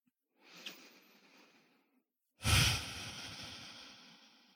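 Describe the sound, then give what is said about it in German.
Deep breathing: one slow, soft breath in is followed after a short pause by a louder, longer, airy breath out that fades gradually. “Dann atme ein paar Mal tiefer ein und aus in dein Herzzentrum jetzt.”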